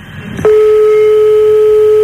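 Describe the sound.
A telephone ringback tone on an outgoing call: a brief burst of faint noise, then one steady, unbroken mid-pitched beep that holds loud and level to the end.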